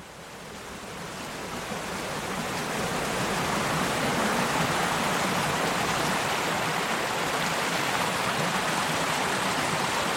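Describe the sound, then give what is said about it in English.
A steady rush of running water from a little stream trickling down from the central highland of the Gower peninsula toward the sea, swelling over the first two seconds and then holding a constant, dense hiss with no voices. “This is the sound of a little stream”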